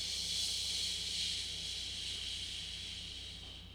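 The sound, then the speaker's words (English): Breath pushed out through clenched teeth during a breathing exercise, a steady airy hiss that lasts several seconds at an even level before easing off slightly at the end. “Again, another big breath in. Exhale through your teeth.”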